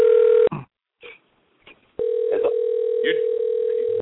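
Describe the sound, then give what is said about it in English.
Electronic phone ringtone on a call that has dropped: a steady, sustained beeping tone sounds briefly, breaks off, then returns and holds continuously, with voices talking in the gap and over it. “They lost the call. So, you all can continue. I'm just ignore the ringtone.”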